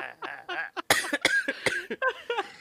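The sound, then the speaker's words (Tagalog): Coughing: a few sharp, harsh bursts in quick succession, woven among throaty voiced vocal sounds at a fairly low level. “Sobra. Inuubo-ubo na nga.”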